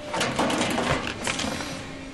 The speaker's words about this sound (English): one machine is turning out dog food dishes. Molten plastic squirts into a mold, which is then cooled by water. Every few seconds, a new warm dish drops out of the machine.